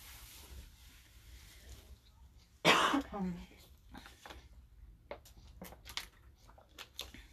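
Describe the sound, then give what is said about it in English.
Throat clearing and coughing from a dry, thirsty throat: one loud, rough burst partway through, with a short rasping tail, set against quiet background noise and a few faint clicks. “that's why I've been, like, trying to clear my throat.”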